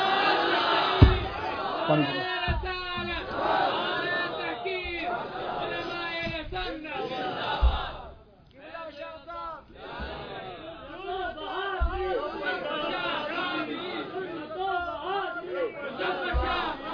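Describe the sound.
A crowd chants a religious slogan in loud, rhythmic shouted bursts of many voices, dropping briefly to a lull midway before the massed chanting resumes.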